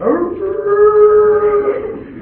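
Coyotes howling: a single drawn-out, wavering howl that swoops up at the start, holds a steady tone, then fades away, with no other sounds around it.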